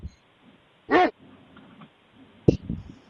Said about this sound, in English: My dog is possessed by something.